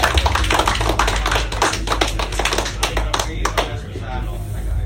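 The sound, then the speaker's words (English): Dense applause from a comedy club audience greeting a comedian, with many overlapping claps and crowd voices mixed in. It stays loud and steady throughout. “Make some noise for Ian Ellis, everybody.”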